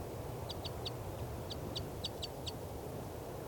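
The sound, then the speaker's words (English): Begging calls of a female bird at the nest: a rapid series of short, high-pitched chirps, evenly spaced, heard over a steady low background rumble. “I've got a net set up here underneath the nest, and this is the begging calls of the female”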